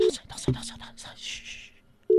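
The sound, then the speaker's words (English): The ringing tone of an outgoing voice call: a steady mid-pitched tone sounds at the start and again at the end, with hushed whispering between. “Ek dink dit is 'n ringtone.”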